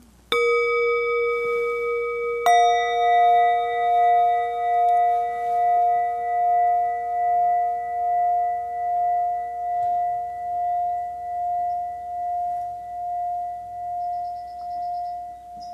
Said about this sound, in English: the sounds in the far sides of the room, the sound of the bells.